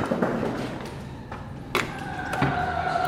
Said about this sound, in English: As I walk to the car from work, going through a door, going through another door,